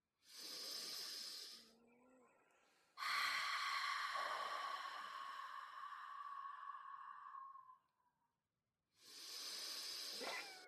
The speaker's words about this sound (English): we're just going to do three deep cleansing breaths in through the nose, out through the mouth. Forcing the air out, forcing the air in.